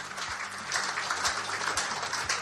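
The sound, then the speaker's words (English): Faint audience applause honouring football league champions at a ceremony, with a soft, continuous patter of clapping that swells slightly midway. “Can we give them a round of applause, please?”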